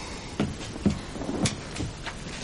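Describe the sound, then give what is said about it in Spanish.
A kitchen drawer is opened so a jar can be taken out, giving a few soft wooden knocks and brief sliding bumps, fairly faint and spaced apart, with no talk. “Saca un bote de un cajón de la cocina.”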